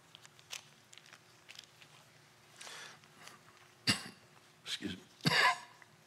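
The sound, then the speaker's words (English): Coughing and gagging before a Bible reading: a few harsh, throaty bursts separated by quiet pauses, the loudest and longest near the end. “Excuse me while I gag in your ears.”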